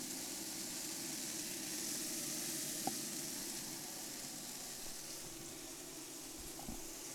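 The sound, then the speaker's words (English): Chicken sizzling as it cooks just before being glazed with butter glaze. A faint, steady hiss and crackle runs throughout, and one small click is heard partway through. “So the chicken is almost ready. Man, it is pretty much ready. So we're going to glaze these bad boys here.”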